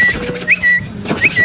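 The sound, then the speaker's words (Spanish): A human whistle imitating a tiny bird: a steady, high tone broken twice by quick upward chirps, with a faint background underneath. “Y de repente entró un pajarito chiquitico y me dio tres vueltas aquí arriba y empezó a silbar.”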